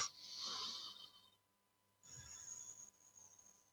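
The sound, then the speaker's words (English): A deep breath drawn in and let out: two long, airy hissing rushes separated by a short quiet pause, fairly soft, with no voices. “Take a breath.”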